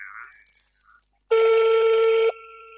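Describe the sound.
Telephone tone during an outgoing call being redialled after a dropped connection: one loud, steady, buzzy tone lasting about a second, then a fainter steady tone continuing.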